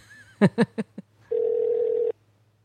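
Telephone dialing out on a call during a live radio show: four short bursts in quick succession, then a steady mid-pitched tone that holds for under a second and stops, over a low constant hum.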